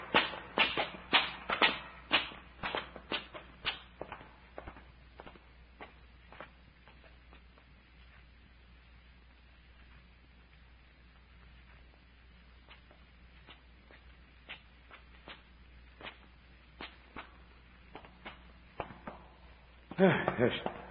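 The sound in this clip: Footsteps climb stone steps as a radio drama effect: sharp, clicking treads fall in a brisk, regular run at first, thin out into sparse, quieter steps, then pick up again in a short loud burst at the end.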